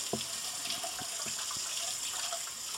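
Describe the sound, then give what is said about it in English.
A kitchen tap runs while hands are washed during cheesecake muffin baking. The water makes a soft, steady hiss with a few light splashes or knocks, fairly faint and without talk. “All right, now I have to wash my hands”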